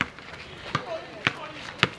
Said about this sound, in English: Here, at an outdoor basketball court, young men in their early 20s shoot hoops on a sunny afternoon.